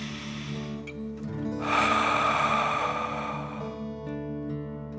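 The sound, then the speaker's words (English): A slow, deep breath drawn in and let out during a relaxation exercise, a long soft breathy rush that swells in the middle and fades, set over gentle sustained background music. “Feel its warmth and take a deep dragon breath in and out.”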